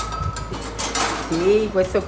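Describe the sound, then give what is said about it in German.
Cooking utensils, pots and cutlery clink and clatter as they are handled in the restaurant kitchen of Namo Risto Bottega in Tarquinia, north of Rome. Scattered bright metallic knocks continue throughout, with a voice briefly heard toward the end. “Im Restaurant Namo Risto Bottega in der Kleinstadt Tarquinia nördlich von Rom zeigt die Besitzerin und Küchenchefin”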